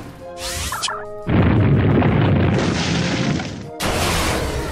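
A quake attack move in a video game: a loud, sustained rumbling boom with crashing noise that lasts a couple of seconds, preceded by a brief high flourish and followed by another sudden burst.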